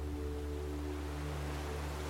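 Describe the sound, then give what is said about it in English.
Gentle ocean waves make a soft, steady rushing wash that never swells or breaks, with faint, low, sustained tones underneath. “but that's where it stays. The gentle ocean waves.”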